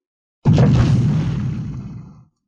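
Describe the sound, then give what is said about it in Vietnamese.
A single loud explosion in a magical battle: a sudden heavy blast with a deep booming body that rolls on and fades gradually over about two seconds, with no other sounds. “Tiếng nổ mạnh từ một phương hướng khác truyền đến.”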